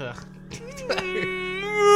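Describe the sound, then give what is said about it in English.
A voice imitates an otherworldly, hollow wail: a drawn-out, moaning tone that wavers in pitch and swells louder toward the end. “And it starts to wail. Now you've done it. You made him cry. And you made like him sad, cry. Otherworldly hollow.”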